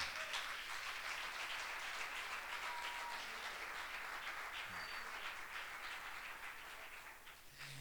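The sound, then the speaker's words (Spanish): Audience applause rises as a steady wash of many hands clapping together, fairly faint and sustained without a break, easing off slightly near the end. “Denle el aplauso, no es para mí.”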